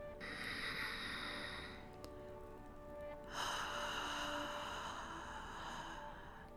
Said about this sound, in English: So, take a deep breath.